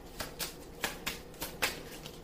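Tarot cards flicked as one is drawn from the deck: six crisp, papery snaps at a fairly even pace, faint and with no talk.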